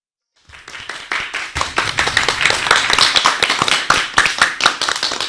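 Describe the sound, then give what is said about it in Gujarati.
Children clap together at a kids' gathering after a brief silence: many sharp, quick hand claps pile into a dense, lively patter that stays loud and steady to the end. “એ હસતા હસતા બધા તાળીઓ પાડે છે હો.”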